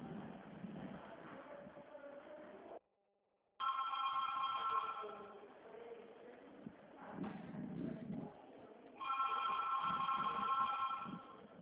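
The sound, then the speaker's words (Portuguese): Telephone ringing tone signals an incoming call on the line during a phone conversation, heard as two long bursts of steady, bright ringing separated by quieter stretches with voices in between. “Ah, pensei que tinha caído, que tá tocando, tá entrando outra ligação na linha.”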